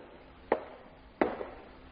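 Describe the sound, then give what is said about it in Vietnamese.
Footsteps in a stairwell: three separate soft, faint thuds, spaced evenly about two-thirds of a second apart, with near quiet between each step. “Nghe có tiếng bước chân, cô nhìn theo hướng đó”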